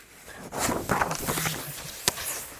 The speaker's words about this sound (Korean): 다시 학교에서 선생님 발소리는 여전히 쿵쿵쿵.